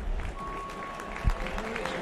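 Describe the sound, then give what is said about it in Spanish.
Stadium crowd applauding as a River football player is substituted during a match, a faint, steady patter of clapping that holds across the short stretch with one brief thump midway. “El otro que sale es Drussi. Aplaudido.”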